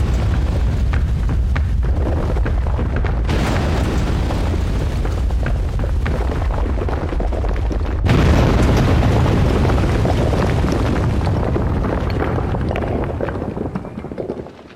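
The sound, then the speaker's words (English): A building explodes with a loud, sustained roaring rumble of blast noise that runs unbroken, surges heavier about halfway through, and then tapers off at the very end. “The place is exploding!”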